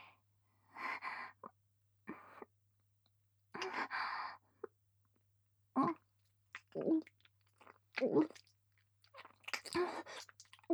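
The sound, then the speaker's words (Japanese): Wet, sloppy tongue kissing from close up, with soft smacking and slurping bursts in the second half. Before them come several breathy sighs and exhales, spaced irregularly with short silences between. No one speaks. “本物のキスは想像していたよりもずっと生々しいのですね。”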